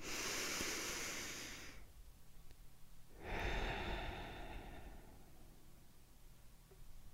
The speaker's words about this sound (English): Let's take our traditional deep breath in and deep breath out.